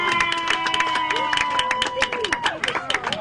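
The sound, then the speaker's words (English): Applause and cheering from an audience for the host of a live variety show, a dense wash of clapping and shouts with a few bright whistle-like tones and babbling voices mixed in throughout. “Okay, thank you all so much. I've been Benjamin. Give it up for JW. Yay!”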